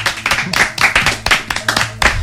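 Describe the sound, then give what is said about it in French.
An audience applauds after a host introduces a guest, a loud burst of sharp, uneven hand claps repeating quickly and steadily, alone with no talking over it. “Veuillez applaudir Clémenté”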